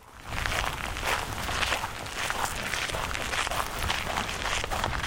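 Footsteps of someone walking along a path that divides a rural property in Portugal: a steady series of many soft crunching steps over a constant hiss, with no talking.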